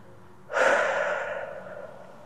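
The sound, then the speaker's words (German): One long, deep breath during a guided relaxation exercise: a breathy rush of air that starts abruptly and slowly fades, heard alone. “Und nochmal bewusst ein paar tiefe Atemzüge, vielleicht auch in den neuen Raum, den neuen Platz, hier im oberen Rücken, im Lungenbereich.”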